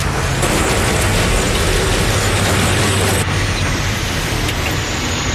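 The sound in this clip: A truck hauling a trailer up a steep hill spins its tires with a loud, continuous, dense roar of engine and wheel noise. The roar stays steady and shifts abruptly partway through.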